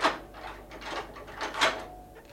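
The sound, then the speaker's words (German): Keys unlock and open a tower door, giving a few faint bursts of metallic rattling and clunking with short pauses between them. “Wo ist die Türe? Ebenso leicht sprengt Belzebub die Tore des Himmels als du diese. Diese Schlüssel verlachen die Vorsicht der Hölle.”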